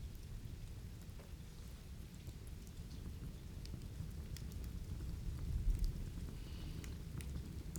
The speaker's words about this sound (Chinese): 听见了什么？雨声。